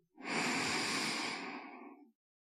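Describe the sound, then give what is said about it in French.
A single long, deep breath in taken at the close of a meditation session, a steady airy inhale lasting about two seconds before it stops. “Placez les mains en prière devant votre cœur. Prenez une dernière profonde inspiration”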